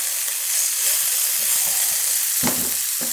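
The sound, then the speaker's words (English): Pancetta sizzles and crackles steadily in a frying pan as it is stirred, with a few soft scraping knocks of the stirring near the end over the constant hiss of frying fat. “Before I do that, I'm going to give my pancetta a stir so it doesn't burn.”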